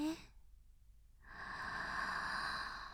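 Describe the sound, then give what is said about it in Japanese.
A slow, deep inhalation during a guided relaxation breathing exercise: after a brief quiet, a soft breathy hiss swells and holds steadily to the end. “体の中の黒いモヤモヤを吐くイメージ。息を吸って”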